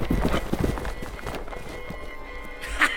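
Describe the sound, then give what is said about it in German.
Several horses galloping with riders: quick, irregular hoofbeats thud in a dense rush, loud at first and then slightly softer. “jagte der junge Herzbruder mit noch 5 Pferden und grüßte ihn mit seiner Pistole”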